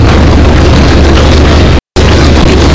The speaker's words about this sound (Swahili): kapigiwa makofi ya nguvu sana